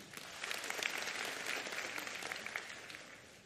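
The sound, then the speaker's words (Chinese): An audience at a live show claps in a steady, dense patter of many hands that stays fairly faint and even for the whole stretch, with no voices standing out. “真系咁多人都听过，听过嘅拍拍手。”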